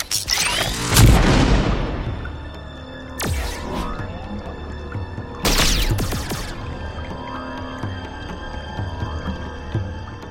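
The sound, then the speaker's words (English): Royalty-free laser blast sound effects: a few sharp zaps with fast-falling pitch, the first loudest and trailing into a booming rumble, the others separated by fading, ringing tails. “if you've just heard the, the royalty-free laser blasts”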